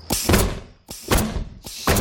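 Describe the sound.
Hammering late at night: repeated dull, heavy thuds that come in a few clustered bursts, with no voices.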